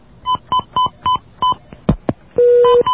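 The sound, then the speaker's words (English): Telephone touch-tone dialing as a host patches a caller into a call-in show. Five short, evenly spaced keypad beeps are followed by a couple of clicks, then a longer steady tone and one more brief beep. “We have another call. I'm going to try to patch this one in, too, if you want to hold on a second.”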